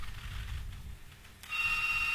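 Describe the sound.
A telephone rings on a radio call-in line, a fairly quiet electronic ring that begins about two-thirds of the way through after a stretch of low rumble.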